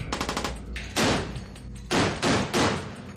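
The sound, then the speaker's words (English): Naval gunfire from the warship Portland during a gunnery exercise, all guns large and small firing at a target: a rapid rattle of lighter shots, then a few heavy, booming blasts. “I've come on board Portland just as they're about to conduct what they call their gunnery serial. They'll be firing all their guns, large and small, checking they all work, and also practicing hitting a target.”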